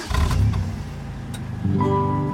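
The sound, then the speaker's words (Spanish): A car engine starting, with a short rough burst of cranking noise that settles into a steady low running hum. “venga, vamos a arrancar el coche”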